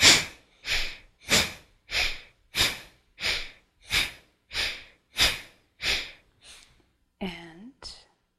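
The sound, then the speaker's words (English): Alternate nostril breathing, in and out through the left nostril with the right one closed: many airy, even nasal breaths in a steady rhythm. A brief voiced sound follows near the end. “Inhaling both nostrils, closing the right nostril, and exhale, inhale five times, left side.”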